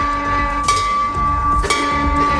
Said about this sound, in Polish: do Centrum Onkologii w Bydgoszczy, gdzie zamontowano dzwon nadziei. Nie tylko zamontowano, ale i w niego uderzono.